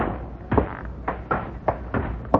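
A trap door in a ceiling is pushed open, giving a series of dull wooden thumps and knocks, several irregular bumps with rough rumbling between them, moderately loud and without talk.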